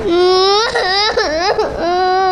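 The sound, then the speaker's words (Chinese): A frightened young child crying: loud, continuous wailing with a wavering, rising and falling pitch, broken by a few brief catches for breath. “你怎么哭了？”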